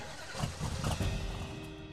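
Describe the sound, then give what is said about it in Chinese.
Car engine running amid traffic on a jammed highway as vehicles begin to move, a steady mid-pitched rumble with low-end surges and a faint tonal hum, moderately loud throughout. “前面的车子好像开始动了”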